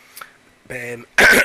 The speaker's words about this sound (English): clear throat number one